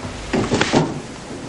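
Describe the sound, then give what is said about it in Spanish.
A door opening, heard as a brief cluster of a few short wooden knocks and rattles close together, moderately loud against a quiet background. “La puerta se abre.”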